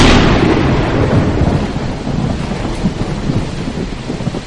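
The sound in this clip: Heavy rain storm high on a windy mountain: a loud, steady roar of downpour with deep rumbling thunder, strongest at the start and then holding constant with no voices.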